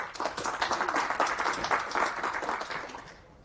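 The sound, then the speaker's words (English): An audience at a software conference talk on storage systems claps steadily in dense, sustained applause that tapers off toward the end. “Put your hands together for Preeta and enjoy.”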